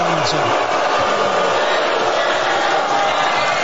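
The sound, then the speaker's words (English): A debate audience yells and shouts, a dense, loud din of many voices that holds at a steady level throughout. “Well, you can hear what was going on then. People were still yelling and everything.”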